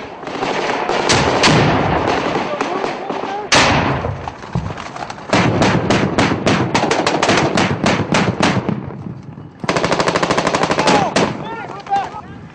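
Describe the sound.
Gunfire and grenade blasts during combat in southern Afghanistan: loud, dense rattling bursts of automatic fire and sharp cracks, with a few heavier bangs, continuing almost without pause.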